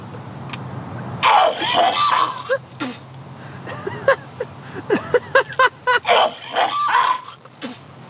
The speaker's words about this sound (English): I'm gonna make myself throw up.